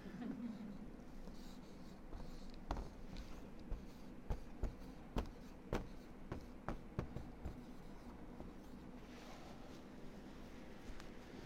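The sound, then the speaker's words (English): Writing on a board: a run of many sharp, faint ticks and scratches in an irregular rhythm over a low background hiss, with the strokes clustering in the middle. “This is why I'm not a school teacher. I can't write on a board.”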